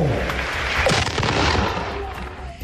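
Artillery battery firing a salute in honor of the president of Colombia: a loud, sustained roar of blasts and rumbling with no clearly separated shots, filling the whole stretch.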